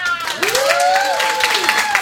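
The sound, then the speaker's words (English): Audience applause at a live comedy or variety show, the crowd clapping for itself at the performer's request. Moderate, continuous clapping, with a gliding whistle or whoop that rises and then falls across the middle. “You are a great audience. We still have some more pieces for you, but in the meantime, give yourselves a big hand.”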